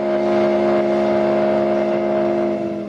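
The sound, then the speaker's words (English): Steam whistle of a passenger ferry sailing to the islands off Cape Cod, sounding a steady, loud, multi-tone chord that holds without a break for the full three seconds. “We're required to have a whistle on each ferry. We're not required to have two whistles, and we're certainly not required to have a steam whistle.”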